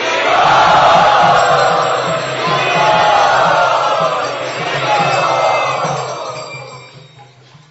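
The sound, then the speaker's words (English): A crowd chants "Hari Bol" in enthusiastic welcome at a Gaur Purnima gathering, loud and sustained, rising in three broad waves of massed voices before fading away at the end. “Let us very, very enthusiastically welcome them by raising our arms and chanting Hari Bol.”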